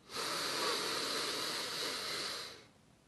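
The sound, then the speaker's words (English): A single long breath drawn in through the nose, a soft, airy hiss that holds steady for about two and a half seconds and then fades. “So, go ahead and breathe in through the nose.”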